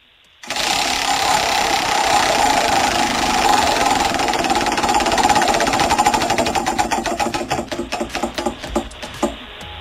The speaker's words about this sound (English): can you please spin the wheel?